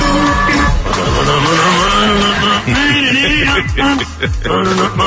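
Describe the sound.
A car drives fast on a freeway, its engine revving hard with tires squealing in a dense, loud stretch. The engine pitch sweeps up and down again and again.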